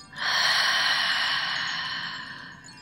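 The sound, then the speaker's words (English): Slow breathing in through the nose and out during a guided breathing exercise: one long, airy, hissing breath that rises quickly, holds steady and then tapers gently. No voice is heard. “Once more, inhaling through the nose. Exhaling completely.”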